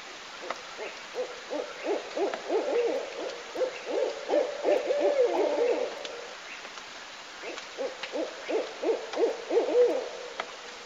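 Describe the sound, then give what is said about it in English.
Owl hooting from a played-back recording: many low, rhythmic hoots in two long bouts separated by a short pause, steady and fairly soft against quiet background hiss. “You should hear our fucking owl recording, dude.”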